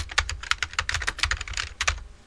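Typing on a computer keyboard: a quick, uneven run of many crisp keystrokes, fairly quiet, heard alone.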